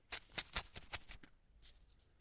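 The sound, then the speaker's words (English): An envelope being opened: a quick run of crisp paper tearing and crackling bursts, then a short pause and one last soft rustle. “Let's open the envelope.”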